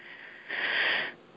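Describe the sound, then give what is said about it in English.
A single deep breath, heard alone: a long, airy, hissing inhale that swells, holds for about half a second and then fades, quiet overall. “Deep breath. Coming back.”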